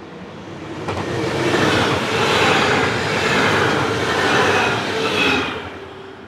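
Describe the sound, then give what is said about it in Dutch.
A train at Zuilen railway station in Utrecht gives off a broad rumbling roar. It swells early, holds with gentle surges, and eases off near the end, with no voices. “Ik sta dus nu op eh, station Zuilen, Utrecht Zuilen”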